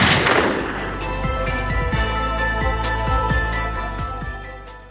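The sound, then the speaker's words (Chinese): A gunshot goes off in a tense standoff inside a car. A sharp, loud blast at the start gives way to a long fading tail scattered with small clicks. “枪响了。老二中弹，倒在后座”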